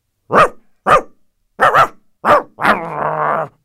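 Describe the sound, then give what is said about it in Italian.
Dog barking: a few short, sharp barks in quick succession, then one longer, drawn-out bark that trails into a sustained, slightly growling tone, heard alone without talk. “Quando il cane fa”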